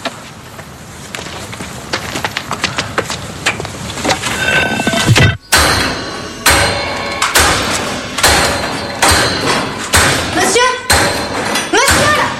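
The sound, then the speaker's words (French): Loud banging on a building site: many heavy, irregular thuds and sharp clanks strike in quick succession while voices talk over the noise. “Vous pouvez taper moins fort, s'il vous plaît? C'est insupportable.”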